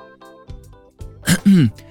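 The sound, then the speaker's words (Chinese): Throat clearing in a dramatized audiobook scene: a few soft breathy sounds, then a rough burst followed by a voiced, gravelly clearing near the end, both brief and fairly loud, with no talk. “陈思淼回过神，清了清嗓子”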